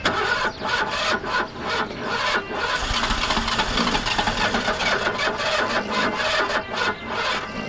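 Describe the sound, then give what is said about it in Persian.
Car engine cranking but failing to start on a car that had been running fine, a loud, rhythmic grinding whir from the starter that repeats steadily throughout without the engine catching. “نه بابا روشن نمیشه. آقا بله این ماشین داشت مثل ساعت کار میکرد”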